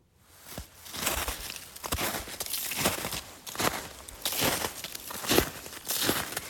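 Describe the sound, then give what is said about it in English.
Footsteps crunch across the frozen surface of a pond in northern Maine, a steady walking pace of crisp, crackling steps on ice with short gaps between them. “I'm walking out onto the frozen surface of a pond that's located in northern Maine.”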